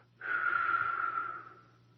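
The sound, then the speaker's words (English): A slow, gentle exhale through the mouth after a held breath, like a soft wind in a relaxation breathing exercise: one airy whoosh of about a second and a half that tapers off, heard alone. “Then you'll let the air out through your mouth when I say relax, as though a gentle wind were blowing, so that it sounds like this.”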